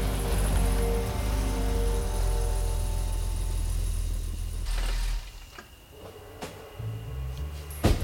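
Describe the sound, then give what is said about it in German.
A Mercedes car pulls up and idles on a street at midnight, its low engine rumble steady for several seconds before falling away, leaving a few faint knocks. “Es war Punkt Mitternacht, als endlich etwas passierte. Ein Mercedes hielt an der Straße.”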